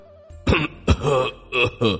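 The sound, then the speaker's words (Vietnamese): Coughing from an injured man with blood at his mouth: a few rough, voiced coughs in short bursts with brief gaps between them, fairly loud, with no talk around them. “Đặng Văn Long ho vài tiếng, cố gắng nặng ra vẻ tươi cười.”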